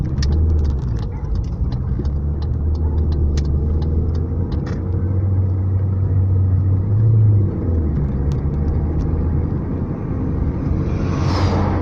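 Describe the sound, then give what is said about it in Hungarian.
A truck drives past amid low, steady vehicle engine rumble that fills the whole clip, with faint rapid ticking early on and a slight swell partway through. “Ez egy kamion.”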